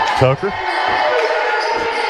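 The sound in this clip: A basketball bounces on the court during a game, a few quick dribbles under an announcer's continuous commentary.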